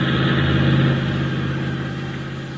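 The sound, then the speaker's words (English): A car motor running with a steady, low, droning hum, loud at first and easing slightly in level over the final seconds, with no voices over it. “start your motor.”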